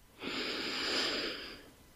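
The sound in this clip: A single long, deep breath during a guided relaxation swells softly, holds as a steady airy rush, then tapers away on its own.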